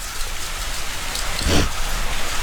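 Steady rain falls in a sheltered spot, a dense even hiss of drops on surfaces that swells briefly louder midway before settling back. No one speaks.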